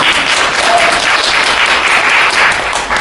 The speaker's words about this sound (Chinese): 这鼓掌好，天冷，咱们暖和一下。